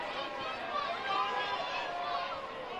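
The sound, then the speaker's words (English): A Monday night baseball crowd jeers a pitcher, making a steady, dense roar of many voices that blend into a continuous hubbub with talk over it. “Monday night crowd jeering him on.”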